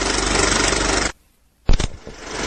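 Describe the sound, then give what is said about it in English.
Old film countdown leader before a movie: a loud, rough mechanical whirring clatter that cuts off abruptly into about half a second of silence, then resumes with a sharp burst and continues. “No, that's the old movie countdown. So when you go to the movies, and it's kind of the fuzzy screen and the four, three, two, one.”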